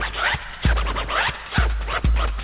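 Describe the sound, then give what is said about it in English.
A DJ scratches a record in fast, gritty back-and-forth strokes over a dense beat, with several heavy low thumps marking the rhythm. “I can cut and scratch, but I don't need to boast. I make beat a little light, but that's okay, cause when I cut to the beat, it sounds this way.”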